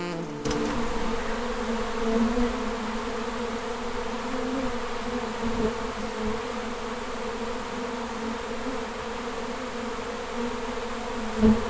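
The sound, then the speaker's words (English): A honeybee swarm buzzing, heard from the beekeeping world: a dense, loud, continuous drone at a steady pitch that holds unchanged for about twelve seconds, with no voices. “Cue the swarm!”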